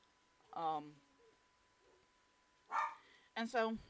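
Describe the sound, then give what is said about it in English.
Dog barks in a few short, sharp harmonic bursts separated by quiet gaps, fairly loud, with the last burst holding two quick barks in a row. “And I'm so sorry for my dogs. They bark at nothing.”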